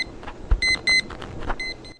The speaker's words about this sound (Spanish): Cuando terminen los 10 minutos, va a sonar esta alarma que os voy a poner.